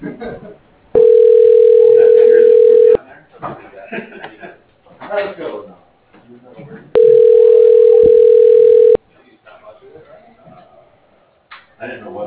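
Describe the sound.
Two long, steady telephone ringing tones, each about two seconds, sound while an automated phone system transfers a call. Quiet voices fill the gaps between them.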